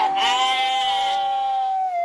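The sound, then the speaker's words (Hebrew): A sheep bleats in a yard: one long, high, wavering cry held steadily for about two seconds before dipping slightly at the end, heard alone. “הבן אהב לקחת את הכבשים שלו לחצר. הוא היה משחק איתן ושר להם.”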